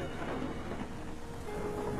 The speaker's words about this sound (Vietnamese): Ở bên ngoài, trời vẫn mưa gió đùng đùng, sấm sét vẫn đổ dồn dập, lập lòe.